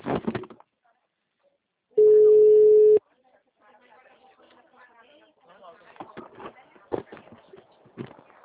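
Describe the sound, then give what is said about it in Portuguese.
A telephone tone follows a dropped call: one steady, even tone lasting about a second after a brief silence. Voices then talk quietly and unevenly. “que a ligação caiu”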